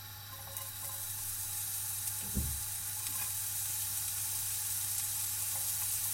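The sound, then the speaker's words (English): Chopped shallot sizzles in a pan on medium heat, a steady, fairly quiet hiss that continues throughout with one brief soft knock partway through. “I'm going to switch on my pan again. I'm going to put it on medium this time because I don't want this to burn. And then I'm going to throw in my chopped shallot.”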